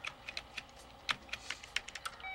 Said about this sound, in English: She nods and resumes typing.